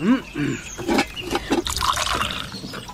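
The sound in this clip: Tea is poured out, with a continuous trickling, splashing liquid sound filling a cup, fairly loud throughout and mixed with talking voices.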